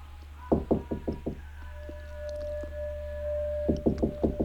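Rattling knocks at a locked door come in two quick bursts of about five or six hits each, separated by a quieter pause with a faint steady hum.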